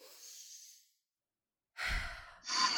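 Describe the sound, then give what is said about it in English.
A deep breath is taken during a guided relaxation exercise. A faint airy breath is followed by about a second of silence, then two fuller breaths in quick succession, all quiet. “Deep breath.”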